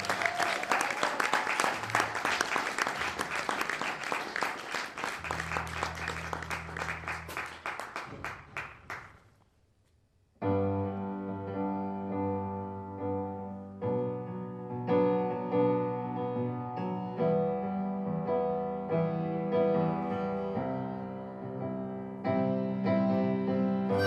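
Audience applause welcomes a pianist: dense clapping for about nine seconds fades out, and after a short pause piano playing begins and carries on to the end.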